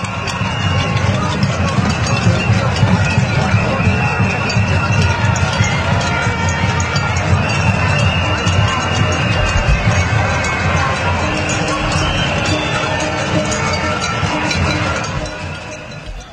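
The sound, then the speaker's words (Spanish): Pots and pans banged by a street protest crowd in Colombia, with shouting and chanted slogans: a dense, unbroken clatter of metallic strikes over a roar of voices, holding steady before easing off near the end. “lo que más caracterizó esta protesta es el ruido de las cacerolas, los gritos, las consignas.”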